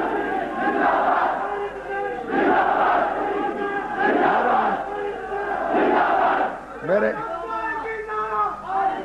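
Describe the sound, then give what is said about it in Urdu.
A crowd chants religious slogans in unison at a Shia gathering, calling out for Ali and Hussain. Loud, voiced chants come in repeated bursts about every one and a half seconds, with a few more tonal, wavering calls near the end. “میں عرض کروں گا, میرے لیے نعرہ مت لگائی, میں اہلیت نہیں رکھتا. آپ نعرہ لگاتے اپنے مولا کے لیے”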